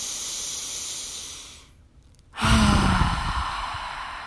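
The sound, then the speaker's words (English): A deep, slow breath: a long airy inhale hisses steadily, fades into a brief pause, then a stronger, louder hissing exhale follows and trails on. “Taking a deep and slow breath.”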